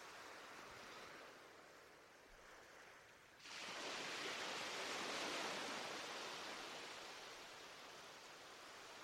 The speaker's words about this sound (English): waves as they roll in and roll out. The rhythmical sound of the ebb and flow washes over you like a soothing lullaby.